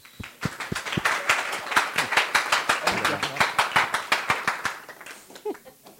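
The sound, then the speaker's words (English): An audience claps to welcome a speaker, a dense, steady run of sharp handclaps that keeps an even, almost rhythmic pulse before quickly tapering off near the end. “Let's welcome our one and only Brian Steele. Give him a hand.”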